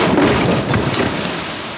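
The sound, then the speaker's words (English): Sound of a sailing ship at sea: a loud, steady rush of wind-and-water noise with a low rumble underneath and no voices. “Sorry, what's that noise? It sounds like some sort of a sailing ship.”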